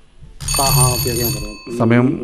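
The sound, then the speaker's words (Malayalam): A timer alarm rings as time runs out during a question-and-answer round, a steady bright ringing tone that holds under loud voices speaking over it. “സമയം കഴിഞ്ഞു. Alarm കേട്ടില്ല.”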